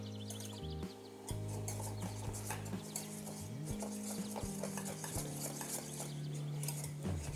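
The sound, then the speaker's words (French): A whisk stirs caramel with cream in a pan, giving quick, repeated scraping and light metallic clinks in an uneven rhythm, faint and alone without talk. “et on va verser le reste de la crème. Et on continue de fouetter.”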